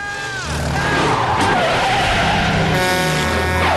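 Tires skid and squeal as a truck brakes hard on a road, a loud, sustained screech over heavy engine rumble that lasts the whole clip.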